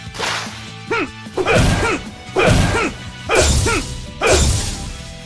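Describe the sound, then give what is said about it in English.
Sword swings from a video game, marking a well-timed attack, land as several sharp swishing whooshes with thwacking impacts. They come in a fairly even rhythm, each a short, bright burst. “So what I was doing, that sound there, that like swishy sound, that like cool, like swordy type sound, means that I got a good, I timed out really well.”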